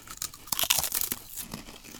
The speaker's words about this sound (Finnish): Tää on nyt mun ensimmäinen purasu